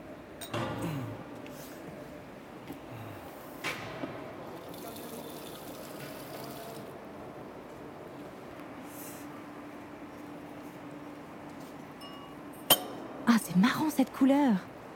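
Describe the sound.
Wine near the end of fermentation is drawn from a vat into a glass for tasting: a few scattered clinks over low background noise, then short gurgling splashes of liquid near the end.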